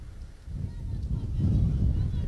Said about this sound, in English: Again, you hear the wind continuing to blow. Very gusty at times.